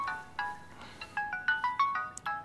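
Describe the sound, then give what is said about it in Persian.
A mobile phone ringtone plays a melodic run of many short, bright electronic notes in a quick repeating rhythm, sounding clearly on its own with no talk. “خاموش کن گوشتو دیگه.”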